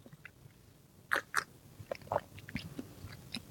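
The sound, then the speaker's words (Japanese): Chewing a convenience-store dashimaki rolled omelette: a few faint bites and moist mouth clicks come in an irregular rhythm, with no talking. “これはコンビニのだし巻き卵、優秀だというお噂なので、ではいただきます”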